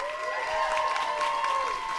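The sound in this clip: Studio audience applauding and cheering a guest comedian on a talk show, a dense continuous wash of clapping with crowd noise, alongside a sustained musical tone.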